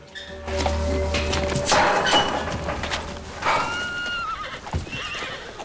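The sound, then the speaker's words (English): Wild horses entering a temporary enclosure neigh loudly in a few shrill whinnies, mixed with clattering hooves and scuffling movement throughout. “The wild horses enter the temporary enclosure as Tyler and Jesse arrive. Tyler leaps off his horse and closes the gate.”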